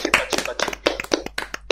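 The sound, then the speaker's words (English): A small group clapping, with many sharp, separate claps in an uneven rhythm. “Let's give one round of applause for everyone who's contributed, both art and discussion.”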